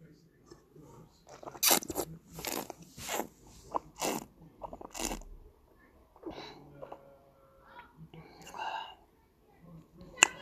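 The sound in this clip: Wine being tasted: a series of soft wet sips, slurps and swishes with sniffs and breathy air, irregular and fairly quiet.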